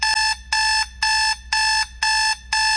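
An alarm clock rings in a loud, steady beeping pattern. About six bright, high, buzzing bursts of equal length are separated by short gaps, with no voices.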